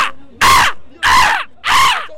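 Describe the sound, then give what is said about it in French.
A person imitates a seagull's cry with three loud, harsh, drawn-out squawks in steady succession, each one breaking and wavering as it fades. “Vous avez fait le cri de la mouette ce midi?”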